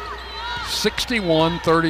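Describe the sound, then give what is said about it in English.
A basketball bounces on the court during a dribble in a women's basketball game, giving a few sharp thuds under a commentator's voice. “Circles out front on the dribble.”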